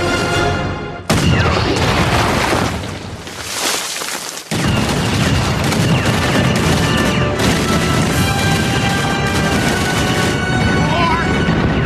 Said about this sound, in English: I want every gun we have to fire on that man.